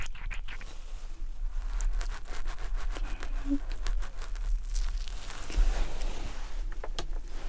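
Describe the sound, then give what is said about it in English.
Soft rubbing and crinkling on the scalp as a glue-dissolving solution loosens the sensors attached there. The texture is faint, close and continuous, with small irregular crackles and no speech. “Let me remove the sensors on your scalp using this solution to melt down the glue.”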